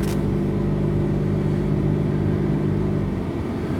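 Steady rumble of a car being driven, with continuous engine and road noise that stays loud and even throughout, with no talk.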